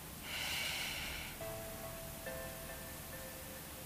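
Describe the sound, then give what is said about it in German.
A deep breath in during a guided mindfulness exercise, a soft, airy inhalation lasting about a second, followed by faint sustained tones. “Atme gerne noch einmal tief ein”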